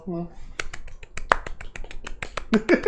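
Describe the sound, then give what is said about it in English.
Light golf clapping: many quick, soft, crisp claps patter unevenly in a brisk scattered rhythm, with a voice heard briefly at the start. “Can I get a little golf clap for”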